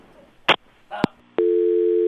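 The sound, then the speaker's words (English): A telephone dial tone follows a caller's line being cut off. A couple of sharp clicks come first, then a steady, unbroken tone holds loudly to the end. “Their phone cut off.”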